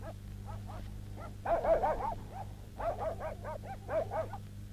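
Dog barking in many quick, sharp barks grouped in bursts that swell and ease, fairly faint over a steady low hum, with no voices.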